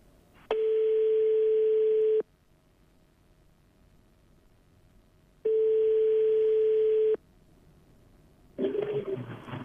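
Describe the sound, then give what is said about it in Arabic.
A telephone line tone sounds while a phone number is redialed: two long, steady, loud tone bursts separated by quiet gaps, then a rougher, noisier burst begins at the end. “نعاودوا نتواصلوا معاه، نركبوا الرقم من جديد.”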